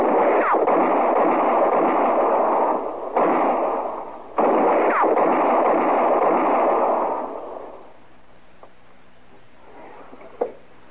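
Gunshots in a Western shootout near trees: a few sharp cracks over a loud, sustained rushing roar that fades after about seven seconds. Two fainter, isolated shots follow in quieter air.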